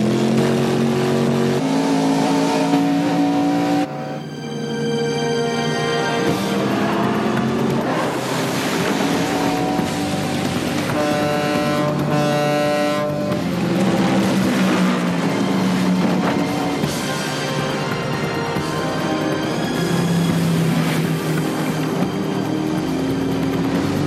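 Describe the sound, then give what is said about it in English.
Roaring motorboat engines during a boat chase on the water, a loud, continuous drone that holds steady for the whole stretch, with no voices. “How long is this boat chase?”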